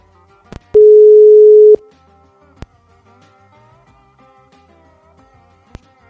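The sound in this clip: A telephone line tone sounds while a call is being placed: one steady, mid-pitched tone lasting about a second. A few sharp clicks come before and after it, and no one speaks.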